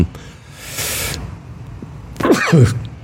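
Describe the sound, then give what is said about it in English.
A single sneeze, a brief breathy hissing burst, followed a moment later by a short voiced sound. “excuse me, another, I tried to stop sneezing.”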